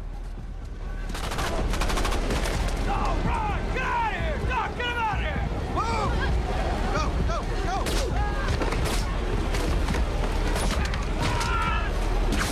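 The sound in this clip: Gunfire as Navy SEALs shoot enemy soldiers in a muddy jungle fight: loud, dense bursts of shots run almost without pause through a busy, layered mix of other sounds.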